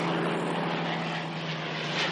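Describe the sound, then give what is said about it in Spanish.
Dense, steady engine drone of several helicopters flying over an army camp in a 1970 war film. A continuous, level roar with a low underlying hum throughout, no voices. “Luego, los tanques avanzan de un lado a otro del campamento, así como varios helicópteros sobrevuelan el cielo.”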